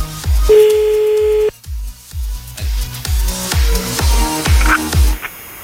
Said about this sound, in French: Bon bah c'est parti, on y va, on appelle.